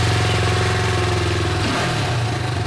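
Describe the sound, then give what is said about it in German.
Motorcycle engine running steadily and loud, a deep, throbbing low rumble with a dense buzzing tone. The engine note shifts briefly partway through, then settles back into a continuous drone. No voices are heard. “Jetzt fahren Sie Motorrad, das frisst ja nicht so viel Sprit wie ein Auto.”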